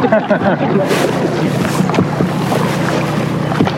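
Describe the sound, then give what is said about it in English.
Canoe paddling on water at a theme park: repeated paddle splashes and swishes over a steady broad wash of water and wind-like noise. “All right, friends, I'm going to sit down and help you guys paddle. Make sure to keep on paddling.”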